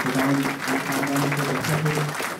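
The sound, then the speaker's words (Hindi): Applause at a church gathering welcoming a visiting family with four children: dense, steady clapping that stays loud and sustained through the whole clip. “जोरदार तालियां के लिए”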